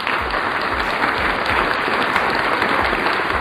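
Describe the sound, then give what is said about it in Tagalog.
Applause: a dense, loud, unbroken wash of clapping with a soft low thump pulsing regularly beneath it. “Palakpakan naman tayo dyan.”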